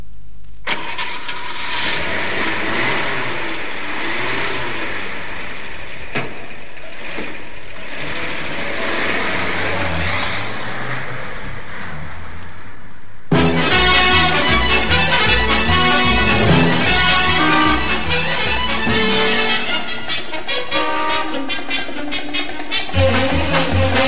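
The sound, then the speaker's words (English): A Rolls-Royce car engine starts and runs with a steady mechanical hum, turning noticeably louder and busier about halfway through. “Get out the Rolls-Royce. It's all ready and waiting at the door, m'lady.”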